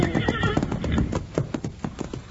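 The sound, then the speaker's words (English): A wild horse neighs with a high, wavering whinny at the start while its hooves pound in a quick galloping clip-clop that carries on alone after the call fades. “He's one of the prettiest wild horses I ever saw in my life.”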